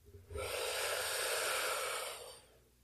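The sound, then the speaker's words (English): A deep breath is taken slowly through the airways. It sounds as one long, soft, airy rush that holds steady for about two seconds and then fades, with no talk over it. “So let's go ahead and take another deep breath in.”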